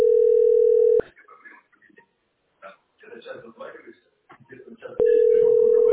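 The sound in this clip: A telephone dial tone from a phone on auto-redial sounds as a steady, loud, flat tone, breaks off for a stretch of talking, then returns unchanged at the end.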